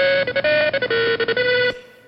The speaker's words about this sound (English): Anybody identify that ringtone?